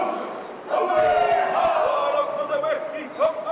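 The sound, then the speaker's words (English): Indigenous Maori perform a welcoming ceremony as Carnival Australia's Pacific Explorer cruise ship, carrying about 2,000 passengers and crew, docks in Auckland. Loud group voices chant and shout in unison with forceful, rhythmic cries. “Indigenous Maori perform a welcoming ceremony as the Carnival Australia's Pacific Explorer cruise ship docks in Auckland with around 2,000 passengers and crew.”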